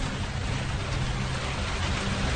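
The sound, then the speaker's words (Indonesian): Rain falls at night as a dense, steady patter and hiss that stays even in level across the whole clip, with no voices. “aku malah jadi tidak bisa tidur lagi. Hujan pun makin lama makin mereda.”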